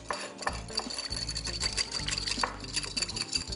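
A spoon stirs a thick whiskey slurry made with cold liquid, giving a continuous scraping, rasping sound. The sound stays steady and fairly loud for the whole stretch, with no talk.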